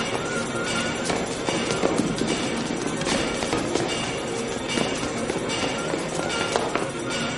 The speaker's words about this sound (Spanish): ve a varios agentes subir las escaleras, todos huyen hacia arriba